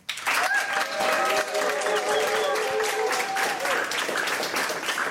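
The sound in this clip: A studio audience applauds, with dense, loud clapping that starts abruptly and holds steady to the end.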